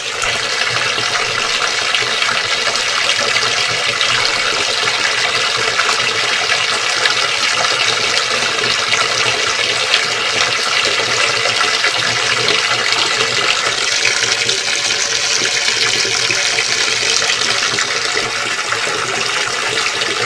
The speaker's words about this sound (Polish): ja widzę, że wody w wannie przybywa, mimo że nie ma korka.